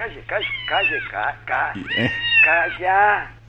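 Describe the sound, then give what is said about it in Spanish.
A cat meowing repeatedly, with drawn-out, bending cries mixed among people talking over a steady low hum. “Dale algo, hija, dale algo de comer al gato.”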